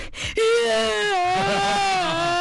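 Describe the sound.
A voice imitates crying with a long, drawn-out wail. The tone is sustained and wavering and stays fairly loud throughout, after a brief breathy sound at the start.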